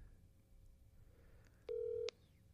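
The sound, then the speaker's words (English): A phone call being dialed, heard as a single short electronic tone that stands out loudly over a faint background hiss. “Okay, I'll call him.”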